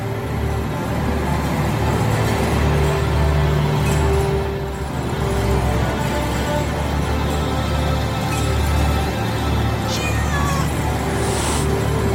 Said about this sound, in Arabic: سمعت صوت القطة لكن المرة دي كان جاي من ناحية سرير عادي.